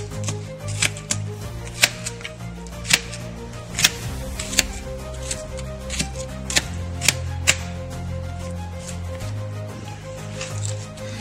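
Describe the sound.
A knife slices an onion on a cutting board in many sharp, crisp knocks at an uneven, unhurried pace, each chop standing out over a soft, steady background.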